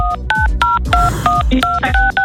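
Telephone keypad dialing tones: a rapid series of many short, clear electronic beeps of shifting pitch, loud over a low rumbling background, with no talk.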